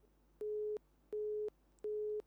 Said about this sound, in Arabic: فصلت المكالمة، يلا.